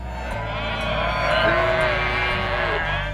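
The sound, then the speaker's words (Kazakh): Sheep bleat as a flock grazes freely on summer pasture, wavering, nasal calls overlapping above a steady outdoor background. “Мана бұл қой қалыланың яйлақтығы әркін яйлышыватқан авазы.”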